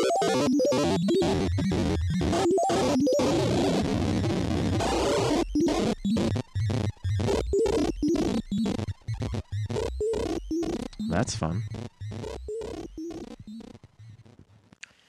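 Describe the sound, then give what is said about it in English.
A modular synthesizer plays a harmonic-series wave shape from the Yellow Wave menu with FM applied. It makes a harsh, dense tone chopped into many rapid rhythmic bursts with short silent gaps, fading out toward the end. “So that last sound you heard was from the Yellow Wave menu, which is the harmonic series.”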